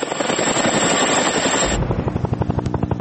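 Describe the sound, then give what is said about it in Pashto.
Rapid rhythmic thudding of a NATO military helicopter flying over Afghanistan, loud and steady, with a dense roar that gives way to evenly spaced beats of the rotor. “لا هم د افغانستان په فضا د ناټو هلیکوپټري ګرځي.”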